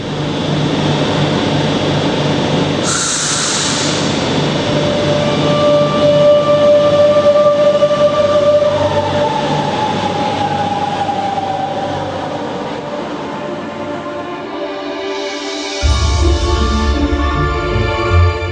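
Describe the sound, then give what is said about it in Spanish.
A metro train arrives as a drama sound effect: a loud, steady rumble with a sustained whining tone above it, which eases off before a fresh burst of noise near the end. No one speaks. “Cuando llegue el próximo metro, sube rápidamente a él. No es un metro convencional, pero tú sube él, sin dudar.”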